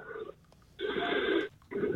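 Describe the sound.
Heavy breathing from a caller on a phone line: a few long, rasping breaths with short pauses between them, narrow and muffled like telephone audio.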